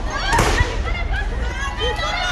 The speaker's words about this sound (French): C'est eux qui, pour répliquer, tirent des grenades lacrymogènes.